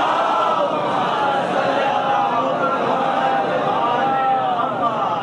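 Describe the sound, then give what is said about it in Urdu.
Worshippers at a majlis gathering raise both hands and chant the Naara-e-Haidari slogan in unison, a loud, sustained roar of many voices that holds steady throughout. “تو یہ وعدہ کرتے ہوئے دونوں ہاتھوں کو بلند کر کے لگا دیجئے نعرہ حیدری.”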